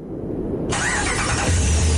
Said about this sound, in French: Le Ram 1500. Pas juste un camion, c'est une légende sur roues